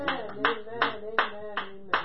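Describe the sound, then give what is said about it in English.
An audience claps hands during a church sermon, a steady, evenly spaced run of six claps over a sustained tonal background. “Somebody clap their hands on the Lord and say, thank you, Jesus.”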